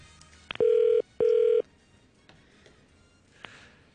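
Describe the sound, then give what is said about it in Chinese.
Telephone ringing unanswered, in two even electronic bursts of about half a second each with a short gap between them, followed by a few faint clicks and near silence. “佢系咪好中意自己电话铃声，所以系咁谂住听？”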